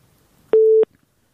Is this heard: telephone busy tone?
yes